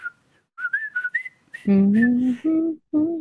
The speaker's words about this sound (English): I liked how the trailer started out with the very iconic whistle march. It's the was it the Colonel Bogey march?